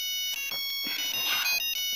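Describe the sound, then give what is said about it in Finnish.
A telephone rings with an electronic ringtone, a high tonal pattern broken by short regular gaps, fairly faint and with no talk over it. “Puhelin.”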